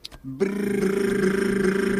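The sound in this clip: A tongue trill made with the mouth: a voiced, buzzing rattle that starts after a brief lead-in and holds steady and fairly loud for about one and a half seconds.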